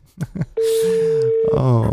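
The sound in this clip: A plain telephone ringback tone with no melody, heard while a call is being placed: a single steady low-pitched tone lasting about a second, with voices talking before and over it.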